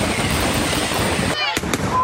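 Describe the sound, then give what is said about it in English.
Fireworks rockets going off: a dense, continuous crackling hiss of bursts, broken near the end by a sharp, loud bang. “Serious fireworks accidents and mishaps. Rockets turning into flying missiles, injuring scores of Americans.”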